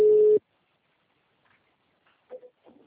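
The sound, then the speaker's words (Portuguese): Telephone hold tone on a call: a single steady beep at a middling pitch lasting under half a second, followed by near silence with a few faint blips. “apareceu que a ligação estava em espera para mim”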